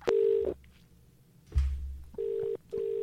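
Telephone tones as a call is placed: a steady mid-pitched beep, a short crackle, then two more matching beeps in an even ringing rhythm.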